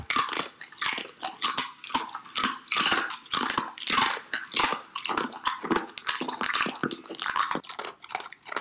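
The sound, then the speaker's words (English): A dog chews dry kibble with many wet, crunchy bites and smacking mouth sounds in a continuous, uneven rhythm. “a dog can walk up to you and just smack some kibbles right in your face”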